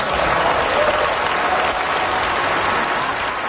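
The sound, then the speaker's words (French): Standing ovation from members of the European Parliament: dense, sustained applause from a large crowd, steady and loud throughout with no voices breaking through. “Marc Carney a eu droit à toute une ovation des députés du Parlement européen”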